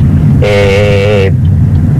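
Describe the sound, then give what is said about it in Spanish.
Car horn in heavy street traffic with dump trucks, lorries and taxis: a single loud, steady honk lasting about a second over a constant low traffic rumble. “Es un tráfico tremendo que todo el mundo se cruza. Ese es otro tema. Volqueta, camiones, taxi,”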